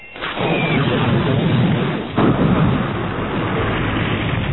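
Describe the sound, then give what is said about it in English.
A sci-fi explosion as a laser blast from a spaceport terminal building strikes a gun emplacement: a sustained, loud, rumbling roar with a sharp second burst partway through. “a brilliant needle of laser energy leaped from the top of the spaceport's main terminal building and hit the gun emplacement.”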